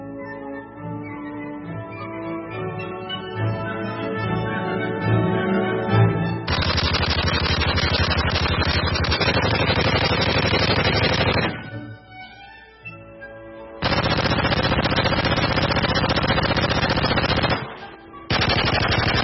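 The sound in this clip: Machine-gun fire added as a sound effect over footage of a bombardier beetle, heard as long, dense bursts of rapid shots that cut off sharply, with short gaps between them, after a quieter opening.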